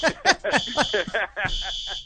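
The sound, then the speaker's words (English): A fire alarm sounds a high, steady electronic tone in long continuous stretches beneath several people talking. “Is that a fire alarm? I mean, all right. We got a fire alarm”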